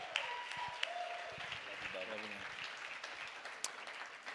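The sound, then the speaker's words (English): An audience applauds to welcome two preachers at a church worship weekend. Soft, continuous clapping runs throughout, with a voice briefly calling out partway through. “Can we give it up for them today?”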